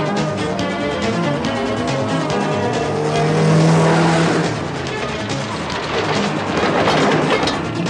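A car engine roars under hard acceleration, holding a loud, continuous, throaty drone from start to finish.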